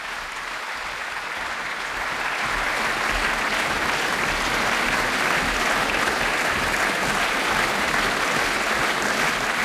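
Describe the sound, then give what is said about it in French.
A concert audience applauds after a chamber music performance by two French musicians, calling the performers back to the stage; dense, steady clapping fills the whole stretch without a break and grows slightly fuller after the opening seconds. “Voilà, le public qui les rappelle, peut-être pour un deuxième moment.”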